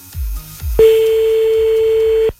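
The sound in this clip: An unanswered telephone call rings out: after a couple of brief low bumps, one long steady ringback tone sounds clearly and alone, then cuts off.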